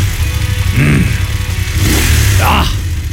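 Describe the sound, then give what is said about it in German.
A motorcycle engine revs in rough bursts over a steady low rumbling idle, loud throughout. “ihr stählernes Lebensgefühl auf zwei Rädern. Die Motorradsaison läuft, Leute.”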